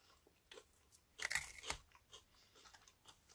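Crunchy, crumbly food being chewed, with a short cluster of faint crisp crunching bites in the middle and quiet mouth noises around it.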